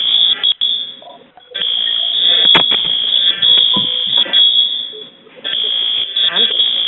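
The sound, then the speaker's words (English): A fire alarm goes off with a loud, high, steady electronic tone that breaks off briefly a few times, while people talk and move around beneath it. “We have the fire alarm going off.”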